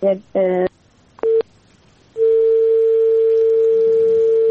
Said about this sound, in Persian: فکر کنم تماس ایش مهمان ما قطع شد.